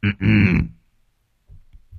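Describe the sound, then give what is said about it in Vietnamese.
A narrator's voice performs an old man's throat clearing: one loud, gruff, two-part grunt at the start, followed by near silence and a few faint low sounds. “Ngồi ở trên sập ngửa cổ phả khói thuốc lào mù mịt, lão Trương hắng giọng.”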